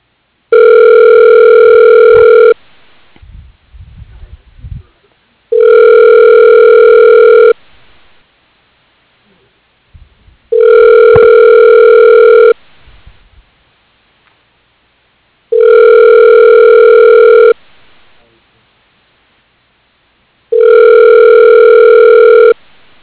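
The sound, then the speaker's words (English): A telephone rings on the line with five long, steady ringback tones, each about two seconds long and evenly spaced, with faint noise in the gaps. “Okay, dialing.”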